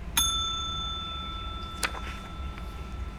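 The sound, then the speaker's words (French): A telephone bell rings with a bright metallic ding that hangs in a long, sustained tone. A second, sharper strike follows about a second and a half later over faint background noise. “Un jour, le téléphone d'Albert sonne. Dring, dring, dring.”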